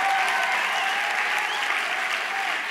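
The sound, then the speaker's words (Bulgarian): A church audience applauds during a sermon, a dense, continuous clapping that stays loud and even from start to finish. “Ръкопляска, ако вярваш, ще се случи.”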